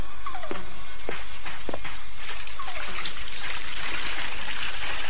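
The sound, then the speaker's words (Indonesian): Warm water poured into a bathroom water container, a steady trickling and splashing stream that runs continuously throughout without talk. “Masuk dan tuang air hangat itu ke dalam tempat air di kamar mandiku itu.”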